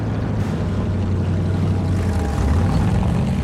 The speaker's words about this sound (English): The boat moves into a riverbank.